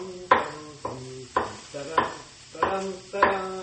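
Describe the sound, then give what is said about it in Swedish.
Slicing of whole button mushrooms held stem-side toward the cook: six sharp, crisp cuts at a steady, unhurried rhythm, each with a brief ringing tail. “Så jag tänker ta mina champinjoner hela som man köper i ask. Skiva dem, håll dem med stammen mot dig och så bara liksom skiva ner så”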